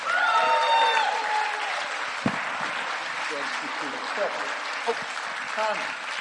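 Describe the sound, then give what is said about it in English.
Audience applause at a church service welcomes a speaker to the stage. It is a steady, loud wash of clapping from start to finish, with a voice heard over the opening moments. “come on, give them a hand.”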